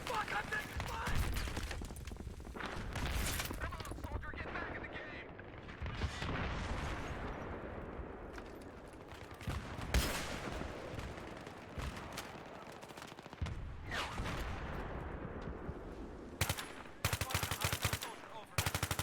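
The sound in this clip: Gunfire from a weapon in a video game: many rapid shots in repeated bursts with short gaps between them, keeping up for the whole stretch at a fairly even loudness.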